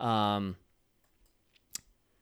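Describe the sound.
Computer mouse clicks while browsing the IndieWire website. A brief voice gives way to quiet, then a faint tick and one sharp, crisp click stand out alone.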